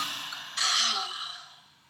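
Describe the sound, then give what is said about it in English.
Cleansing yoga breath with an audible 'ha' exhale: a faint airy hiss, then one sudden forceful rush of open-mouthed breath that gradually fades away, alone without other sounds. “So just a few cleansing breaths, audible with a ha at the end. Inhale, exhale, ha.”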